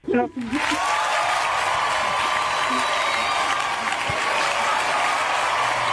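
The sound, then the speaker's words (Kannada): Loud, dense applause for a correct answer in a quiz phone-in, rising quickly after a brief opening burst and then holding steady and even until the end. “ಸರಿಯಾಗಿ guess ಮಾಡಿರೋದಕ್ಕೆ ನಿಮಗೆ ಬರ್ಲಿ ಜೋರಾದ ಚಪ್ಪಾಳೆ.”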